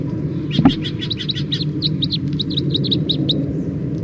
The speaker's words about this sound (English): And then the wild birds. Wild birds.